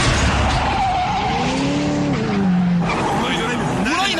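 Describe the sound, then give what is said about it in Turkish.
A car accelerates hard with its tires squealing. A whining tone sweeps up and down over a loud, steady roar of engine and road noise. “Bas şu gaza. Biraz sabret, gazlıyorum işte.”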